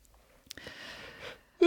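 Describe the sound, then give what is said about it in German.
A long yawn: a drawn-out, breathy, fairly faint exhale lasting under a second, followed at the very end by the start of a louder voice. “Boah, ich habe kurz mal lang gegähnt.”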